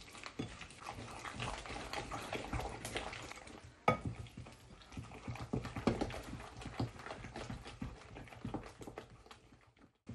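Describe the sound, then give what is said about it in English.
A spoon gently stirring a marrow pudding mixture with eggs added last, making faint, soft scraping and scattered light clinks against the dish, irregular and quiet, with no talk. “I'll gently stir it first. Oh, it's a weird combination of ingredients,”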